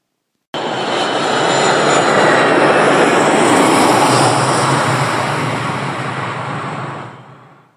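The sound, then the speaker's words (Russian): Roar of an enemy ground-attack aircraft sweeping overhead above open desert, a loud, sustained engine rumble that bursts in abruptly, holds steady for several seconds, then slowly fades. “он чуть не оглох от рева пронесшегося над головой вражеского штурмовика.”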